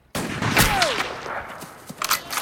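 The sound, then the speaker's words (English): Rifle gunshots fired in a western film scene by a man near his horse: a sharp, loud crack opens, a whistling tone sweeps downward after it, then several fainter, scattered reports follow. “He misses with the first shot and fires off two more rounds before another two ring out from somewhere in the distance.”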